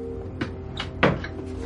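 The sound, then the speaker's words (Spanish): A bedroom drawer is opened and a ring is tossed inside, heard as a few short, quiet knocks and sliding scrapes over a steady low hum, with no talk. “abre un cajón del dormitorio, se quita un anillo y lo tira dentro”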